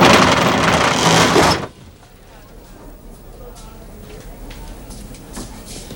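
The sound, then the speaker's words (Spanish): Metal roller shutter pulled down over the front of a video rental shop: a loud, dense metallic rattle lasting under two seconds, then an abrupt stop and a quiet stretch with soft scattered knocks. “Mundu echa el cierre metálico de la tienda.”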